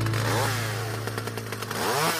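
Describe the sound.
A Stihl leaf blower runs with a loud, steady engine drone and a bright harmonic whine, its pitch wavering slightly throughout, with no talk.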